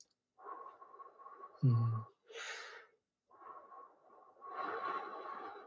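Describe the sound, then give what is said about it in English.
A few pursed-lip breathing sounds demonstrating a slow, prolonged exhale: airy, hissing breaths with a short, sharp snort-like intake in the middle, followed by a longer, fuller exhale. “just maybe do some pursed lip breathing where you just”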